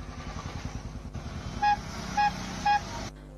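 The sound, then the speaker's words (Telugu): An auto rickshaw arrives with a steady, buzzing small-engine putter. Three short horn beeps sound in quick succession, then the engine cuts off abruptly. “Auto వచ్చింది నాన్న.”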